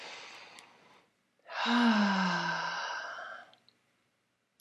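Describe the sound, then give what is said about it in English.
A single long, deep breath drawn in and let out like a sigh, steady and fairly loud for about two seconds, with a fainter breath just before it and quiet afterward. “Nice deep breath.”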